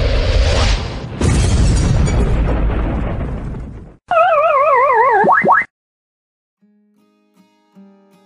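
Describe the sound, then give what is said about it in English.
A self-destruct explosion sound effect opens with two loud, rumbling bursts of roaring noise that slowly fade. A warbling electronic wobble follows, then near silence with faint tones. “This message will self-destruct in 3, 2.”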